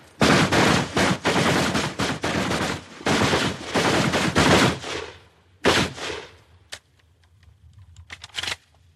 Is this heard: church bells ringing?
no